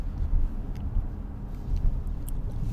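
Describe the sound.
Road noise inside a moving car, a low rumbling drone with soft swells in loudness and no talking.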